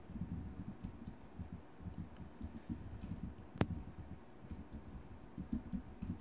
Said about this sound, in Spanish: Está escribiendo, enviando.